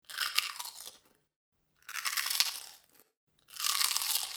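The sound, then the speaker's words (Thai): Crunching on Party Crispy Pie, a pie-shaped fried crispy corn snack, in three distinct bursts of crisp, brittle bites and chewing, separated by short silences, with no talk. “โอ้ยไม่ไหวกรอบอร่อยอะไรขนาดนี้นี่เลยใหม่ปาร์ตี้คริสปี้พายขนมข้าวโพดทอดกรอบรูปทรงพาย”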